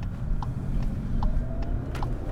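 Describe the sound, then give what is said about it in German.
A car driving along a dirt field track beside railway lines gives a steady low rumble of engine and road noise, with faint, evenly spaced ticks above it. “Über einen Feldweg, direkt an den Bahngleisen entlang, fahren wir mit dem Auto in Richtung Hexelplatz zur Eisenbahnbrücke.”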